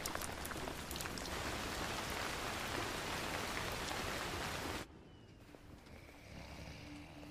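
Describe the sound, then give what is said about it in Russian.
Steady rain falls at night over a military camp, a dense, even hiss that suddenly drops to a quieter, thinner patter for the last few seconds. “По лицу девушки стекают капли дождя, взгляд устремлен в темноту.”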